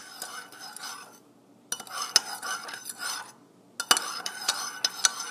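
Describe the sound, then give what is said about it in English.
A spoon stirs sugar into a cup of tea, scraping and clinking against the sides in three bursts separated by short pauses, with sharp metallic chinks scattered through each burst. “and then now I need to get a spoon. And I'm stirring my tea.”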